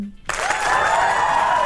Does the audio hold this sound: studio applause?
yes